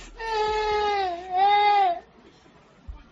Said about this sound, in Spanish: Esta niña que vais a escuchar llora, deja de llorar, vuelve a llorar